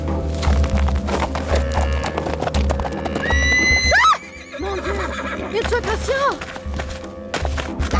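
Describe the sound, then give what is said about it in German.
A horse that has been whipped is ridden out of bushes, its hooves clopping steadily. A loud, rising whinny breaks out midway, followed by a few shorter neighs over the continuing hoofbeats. “In diesem Augenblick versetzte ich meinem Pferd einen Schlag mit der Peitsche und ritt aus dem Gebüsch heraus.”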